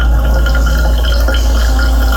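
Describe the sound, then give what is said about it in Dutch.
Coffee running through a coffee maker, a loud, steady gurgle and trickle of liquid over a constant low hum, continuous throughout without talk. “Een doorlopen van koffie.”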